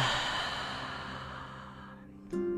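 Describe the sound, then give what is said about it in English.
A long, deep exhale during a breath-retention exercise, breathy and steady, tapering over about two seconds before a voice briefly starts. “Inhale and exhale, empty out.”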